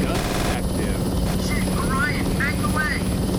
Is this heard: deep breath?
no